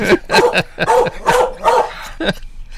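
A dog barks and yips repeatedly while getting its teeth brushed, giving a series of loud, sharp, harmonic barks in an uneven rhythm with short pauses between them.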